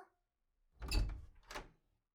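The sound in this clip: Two knocks on a door, the first heavier and the second lighter, both faint with silence around them.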